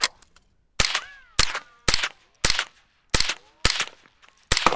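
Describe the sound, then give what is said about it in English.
Gunfire from an AK rifle shooting at bottles: eight sharp, loud cracks in an uneven but steady rhythm, each followed by a short ringing tail and then silence. “Got a little jam. I'm going to go for the bottles at the AK.”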